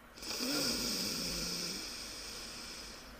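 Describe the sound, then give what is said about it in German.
A single slow, airy inhalation through the left nostril, with the right nostril held closed during an alternate-nostril breathing exercise by someone with hay fever. It is faint and steady, swells early, then tapers off alone. “halte das rechte zu und atme durch das linke ein”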